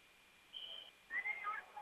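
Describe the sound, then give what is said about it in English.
A referee's whistle sounds during a basketball game: one faint, steady, high-pitched blast, followed by quieter chirping, squeaky sounds. “And the whistle blows now.”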